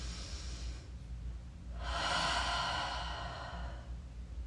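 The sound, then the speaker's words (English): A slow, deep breath drawn in while relaxing in a bath. It is a soft, airy rush that swells over about two seconds and then eases off, quiet against a low, steady background hiss. “I'm gonna take a deep breath in.”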